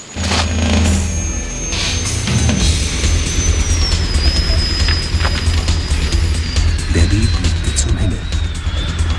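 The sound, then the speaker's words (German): A police helicopter: a steady, loud low-pitched mechanical drone runs throughout, with a faint high whine above it that slowly drifts lower in pitch. “Der Polizeihubschrauber! Die Rettung naht!”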